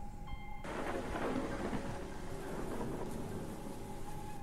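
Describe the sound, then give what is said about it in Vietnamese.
Heavy rain pours over a graveyard as thunder rumbles: a loud, continuous hiss of rainfall runs throughout, with a deep rolling rumble underneath and no voices. “Đúng lúc ấy thì bắt đầu có mưa ập đến. Trên bầu trời sấm chớp nổ đì đà đì đùng”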